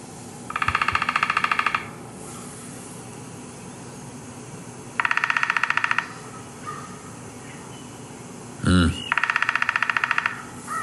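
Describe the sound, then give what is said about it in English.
A downy woodpecker drumming: three rapid rolls of fast, evenly spaced taps, each lasting roughly a second or more, separated by pauses. “We've got the drum of the downy woodpecker, and we're going to take a listen to that”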